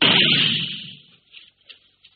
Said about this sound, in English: You stick a gun into a pillow or something else soft and... Well, listen.